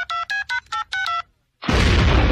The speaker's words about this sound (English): Damn phone's busted. Maybe I dialed wrong.